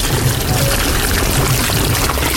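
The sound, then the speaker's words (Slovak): Mineral spring water gushes out of an intermittently erupting sulphurous spring that builds terraced cascades, giving a continuous, dense, splashing rush with no pauses. “Momentálne ten prameň akurát je v činnosti. Môžeme ho približiť.”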